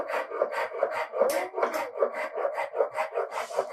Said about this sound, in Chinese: 那我们就拿了一个锉刀，看到这里的线条，我们就慢慢的磨。